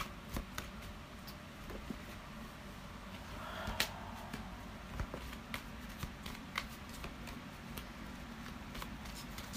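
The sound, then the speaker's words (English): Tarot cards being shuffled for a collective reading, faint soft riffling broken by many crisp little snaps and taps scattered through the whole stretch. “So I'm gonna pull a few cards. What do you have for this collective reading?”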